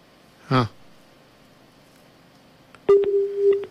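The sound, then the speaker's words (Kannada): Phone call cutting off, with a short noisy burst, a pause, then a steady low-pitched line tone broken by sharp clicks as the connection drops. “ಅಯ್ಯೋ, ಯಾಕೋ ಕರೆ cut ಆಗ್ಬಿಡ್ತು ಪಾಪ.”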